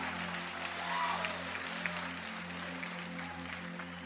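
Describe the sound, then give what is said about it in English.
Congregation applauding to welcome a speaker at a church baptism service, a steady, faint wash of clapping held over a low hum without a clear break. “So can you welcome Fraser as he shares a bit of his story with us tonight?”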